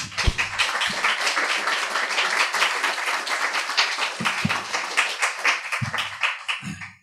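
Audience applause greets three authors at the start of an evening book discussion: dense, steady clapping with a few heavier low thumps, holding for about seven seconds before thinning out at the end.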